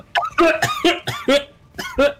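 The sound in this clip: Throat-clearing coughs, several short, voiced, hacking bursts in an uneven series, fairly loud and alone.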